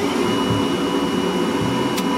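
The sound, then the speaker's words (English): Electric blower of a pipe organ running: a steady whirring, airy drone with an even level and no clear rise or fall, heard alone. “And underneath this, there's valves, goes down to some valves, which opens up the air chest to each relevant pipe. Just turn the blower on.”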